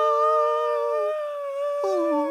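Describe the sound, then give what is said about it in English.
A dog howls in a long, smooth, tonal wail that holds steady, then dips lower near the end before continuing. “There are dogs barking right now. They're right there.”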